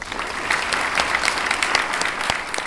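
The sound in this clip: Applause from an audience welcoming a speaker at a university event: dense, steady clapping that holds at an even level from start to end, with no voices over it.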